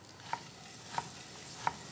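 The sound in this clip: Butter browns and sizzles in a pan with chopped nuts, giving a faint, steady hiss broken by three sharp, evenly spaced taps of a utensil stirring.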